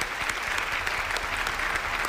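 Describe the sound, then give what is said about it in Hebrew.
Audience applause after a speaker is introduced at a religious lecture, a steady, dense wash of many hands clapping at an even, loud level for the whole stretch, with no voices over it. “מחיאות כפיים לרב אסף מחלב.”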